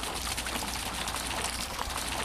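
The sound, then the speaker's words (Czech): Water murmuring from the Triton fountain in Republic Square: an even, steady wash of splashing that stays level for the whole stretch. “Voda zurčí, my jsme ušli doslova pár kroků a ocitli jsme se na náměstí Republiky, na místě, kde v dnešní době stojí kašna Tritonu.”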